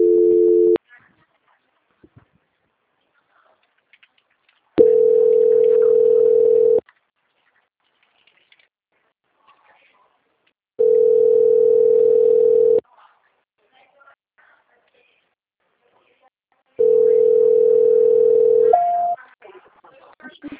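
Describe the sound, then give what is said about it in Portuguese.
Telephone call transfer tone: a steady, even electronic tone sounds four times at regular intervals of about six seconds, each lasting around two seconds, with a brief higher-pitched blip at the end. “Eu vou transferir a ligação, só um minuto. Transferência.”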